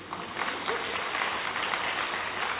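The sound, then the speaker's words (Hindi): Clapping from an audience at a spoken discourse after being prompted to applaud, a dense, even patter of many hands with a muffled, dull tone that stays steady throughout. “हाँ ताली बजाइए”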